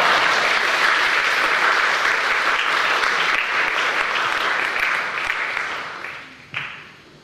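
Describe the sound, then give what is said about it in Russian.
An audience gives sustained applause to welcome a speaker. The dense clapping holds steady for several seconds, then thins and fades near the end. “поэтому просим его, чтобы он взял слово, и поприветствуем его своими аплодисментами.”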